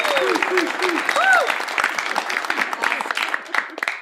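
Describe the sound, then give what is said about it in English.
A studio audience applauds at a storytelling show taped for a New Hampshire television channel, with crisp, rapid claps building into a steady ovation and a voice heard briefly at the start. “especially we want to thank our audience. Give yourself a hand.”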